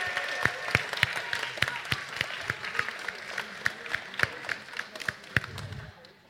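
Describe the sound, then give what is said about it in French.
An audience applauds prize winners at a pitch competition during a digital technology event. The steady clapping lasts about six seconds, with sharp individual claps standing out from the dense patter. “Bravo Allez, on les applaudit”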